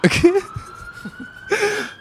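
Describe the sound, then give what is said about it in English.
Emergency vehicle sirens wail faintly in the background as a thin, steady tone running beneath short bursts of nearby sound. “You can hear the sirens in the background while Jack was reading.”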